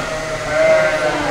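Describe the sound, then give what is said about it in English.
A sheep bleats in a large open-ended barn at shearing time: one drawn-out, wavering cry over a steady background murmur. “In a large open-ended barn at the UC Research and Extension Center about 8 miles east of Hopland, it's sheep shearing time.”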